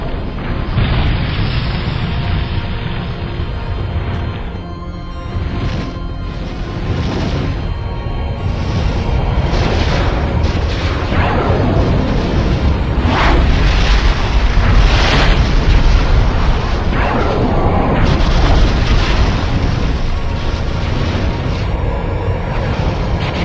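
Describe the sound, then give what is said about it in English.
Torpedoes launch and explode in a battle, a loud, continuous barrage of deep booming blasts and rumbling with sweeping whooshes, and no talk. “Launch torpedoes. Give them all we've got, Jardin.”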